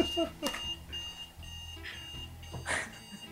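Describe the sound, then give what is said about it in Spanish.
An alarm goes off, a repeating electronic beeping tone that sounds faintly alongside talking voices. “Vaya, me está sonando una alarma, perdóname un segundo.”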